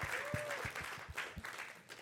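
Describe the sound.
A church audience gives quiet applause, a soft continuous patter of clapping with a few dull low thumps mixed in.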